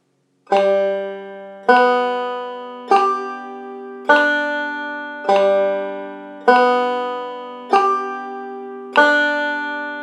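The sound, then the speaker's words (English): Eight sustained pitched notes are played slowly, each beginning on a sharp metronome click set to 50 beats per minute. They form an even, unhurried pulse, with each ringing note fading before the next click, and there is no talk. “I'm just going to play, start with every note right on a click. So it's going to sound like this.”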